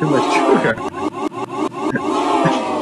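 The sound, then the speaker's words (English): Crowd booing, a dense wash of many voices that swells and dips in quick pulses and stays loud from start to end. “somebody boo this man right now”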